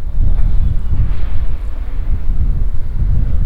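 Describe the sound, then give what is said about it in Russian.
Strong wind blows between apartment buildings, a steady, loud low rumble with buffeting gusts that roll through the whole clip without any voices. “Северной, наверное, не зря оправдывает вот свое название постоянными ветрами, дующими между домов.”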